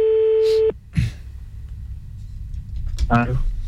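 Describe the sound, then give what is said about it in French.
Ringing tone of an outgoing telephone call: a single steady, even tone that stops after under a second. Quiet background noise follows, and a voice comes in near the end. “Que ça sonne en direct. On appelle. Et on va voir ce que ça donne. J'espère juste que ça va répondre.”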